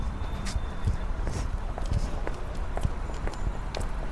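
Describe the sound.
Footsteps of people walking, an even run of many crisp steps at a relaxed walking pace over a low background rumble, with no talking.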